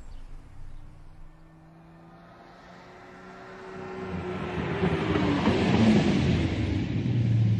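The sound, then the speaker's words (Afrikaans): A speeding sports car: a low engine hum swells into a loud, rushing roar, its tone climbing as it builds, then holds strong to the end. “Jaag jy altyd so? Wat bedoel jy, dis mos 'n sportskar?”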